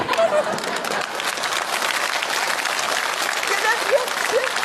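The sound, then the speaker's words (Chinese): An audience applauds during a comedic stage routine, a lively, steady patter of many hands clapping that stays fairly loud throughout its roughly five seconds. “行，别鼓掌啊”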